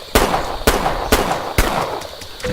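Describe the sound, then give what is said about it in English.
Bullet bomb explosions in a video game battle: four sharp, loud bangs at an even, quick rhythm, each with a short rumbling tail. A steady electronic tone starts just after the last blast. “Foe's bullet bomb just exploded.”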